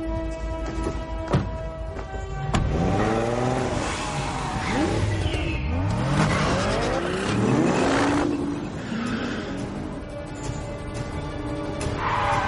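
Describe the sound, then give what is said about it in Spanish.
A red Audi drives off from a car park, its engine loud and continuous. The engine note climbs in pitch again and again as the car accelerates hard. “Entran en un aparcamiento. Suben al coche rojo.”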